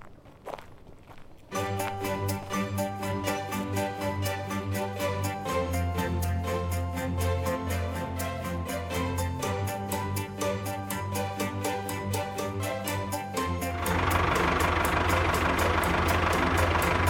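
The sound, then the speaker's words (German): A farmer's tractor engine starts abruptly and runs with a steady, rapid chugging pulse, then turns louder and rougher near the end. “Ich hol schnell meinen Traktor und fahre zu den Tieren in den Wald.”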